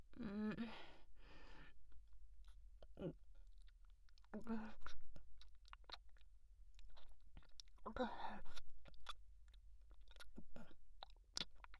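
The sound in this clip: Someone chews food while eating, with many soft wet clicks, smacks and munches in an irregular rhythm. The chewing is faint and broken by a few brief breathy vocal sounds.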